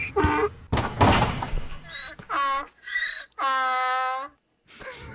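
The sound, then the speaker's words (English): A voice imitates a donkey braying with a string of harsh, nasal hee-haw cries that alternate between breathy, noisy bursts and strained tonal honks. The cries are loud and heard alone, ending with a long sustained bray and a final short cry. “can you imagine a donkey dunking on you and gloating? It would sound like this.”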